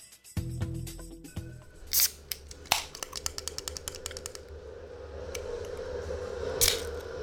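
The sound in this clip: A beer bottle is handled and opened, then sprays over a computer. Scattered sharp clicks and snaps lead into a growing fizzy hiss, with a louder gush near the end and no voices.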